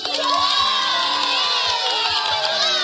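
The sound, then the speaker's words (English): An audience cheers after a dance performance on stage, with excited children shouting and whooping in a continuous, high-pitched roar of voices that stays loud throughout. “When the baby ponies finished their dance, everyone leaped up and cheered.”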